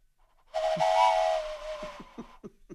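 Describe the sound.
A train sound effect opens with a loud, sustained steam whistle, held steady for nearly a second, then fades into a few soft, rhythmic chuffs.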